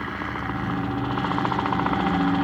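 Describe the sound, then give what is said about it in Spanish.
Steady engine-like drone of a rocket-propelled glider spacecraft crossing a valley, a continuous loud hum that holds without breaks throughout. “Un extraño vehículo espacial, muy parecido a un planeador propulsado por cohetes, cruza el valle a lo largo.”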